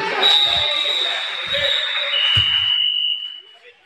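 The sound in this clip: A basketball is bounced three times in a steady rhythm about a second apart before a free throw, the dull thumps heard under talk and a sustained high tone.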